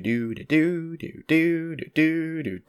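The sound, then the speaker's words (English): A voice imitates a lute being tuned, singing a few steady, mid-pitched nonsense syllables in short sustained bursts separated by brief gaps, with no instrument present. “Tunes her guitar, she tunes her lute for a second, and it sounds like this.”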